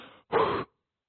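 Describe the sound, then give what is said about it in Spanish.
A voice imitates a last breath leaving the body: one short, breathy exhale that rises abruptly and cuts off. A faint, softer sound comes just before it, then silence follows. “El aliento se le ¿qué? Se le fue, se le salió. Hizo así.”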